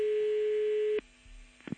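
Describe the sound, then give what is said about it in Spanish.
A steady telephone dial tone on a line after hanging up and redialing holds evenly for about a second. A click cuts it off, leaving a fainter, lower hum, and a second click comes near the end. “Espera, pues, vuelvo a marcar otra vez, espera. Me cuelga y vamos.”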